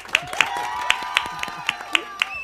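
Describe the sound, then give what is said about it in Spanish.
Sharp, evenly spaced hand claps greet a guest arriving on a talk show, a few people clapping in a steady series of about eight distinct claps. “Aplausos a todos.”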